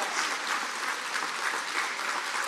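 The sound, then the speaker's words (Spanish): Applause for the Lord at a religious gathering: a steady wash of many hands clapping together, fairly faint and even throughout. “aplauso para el Señor que nos lleva la salvación y libera a nuestra familia.”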